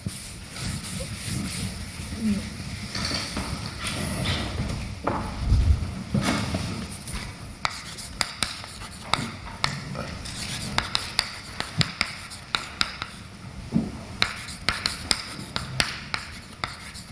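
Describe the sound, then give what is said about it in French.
Writing on a board: scratchy strokes and sharp little taps, first blended into a dense background, then standing out as many distinct ticks in an irregular rhythm. “pour voir que c'est vrai, je vais écrire quelque chose par ici, euh, mais moins formellement”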